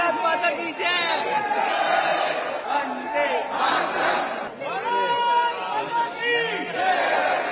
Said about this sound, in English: People turned out in large numbers, eager to greet and meet the Prime Minister.